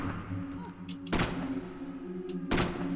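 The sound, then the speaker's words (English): Two sharp, loud gunshots ring out as a player fires at a zombie in a video game. The shots come about a second and a half apart over a low, steady game ambience. “So if I press the space bar, I'll shoot him.”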